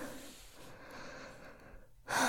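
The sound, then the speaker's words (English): Heavy breathing: rough, airy breaths at a fairly faint level, ending in a sudden, much louder sharp gasp. “Catch your breath. Breathe for me.”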